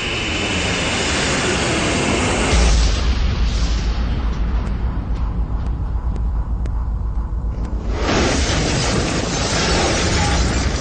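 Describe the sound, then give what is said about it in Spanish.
Bombs exploding in an air raid on a city square: a dense, continuous roar over a deep booming rumble. It swells heavily, thins for a stretch and then surges back to full force. “¡Es un desastre! Se deben haber dado cuenta que las bombas atómicas no funcionaban y vinieron a bombardear la plaza.”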